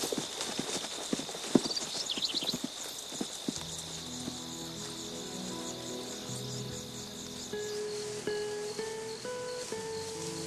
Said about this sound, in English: The sun glows on Sally's bronze skin as she watches Ned ride off with Will.